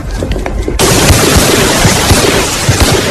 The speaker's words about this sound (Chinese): 在黄埔军校的靶场上，一排军官生持枪握姿射击